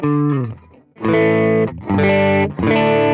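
Electric guitar through a Kemper Profiler with its drive pushed for a dirtier tone rings out in a few distorted, sustained chords or notes with brief gaps between them, loud and bright with no talking.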